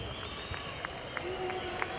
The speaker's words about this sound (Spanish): El público se anima aquí en las tribunas del Parque Francisco y Madero.